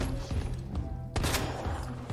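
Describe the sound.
Gunshots fire in a video game: a few sharp, punchy bursts at irregular intervals over a busy background, with one heavier, longer burst near the middle.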